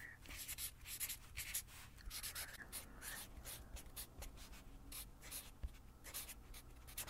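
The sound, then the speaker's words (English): Pen scratching on paper while body measurements of the thighs are written down, a soft, steady stream of small strokes and scribbles with no voices. “Okay. So let's write down your thighs.”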